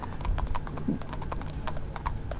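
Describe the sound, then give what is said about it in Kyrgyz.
Hooves of mounted cavalry horses escorting a state welcome ceremony clop in a brisk, steady patter of many sharp hits over a continuous low rumble. “Ова кесиптеш жалпы ушул мына атчан аскерлердин коштоосунда келе жаткандыгын көрүп жатабыз.”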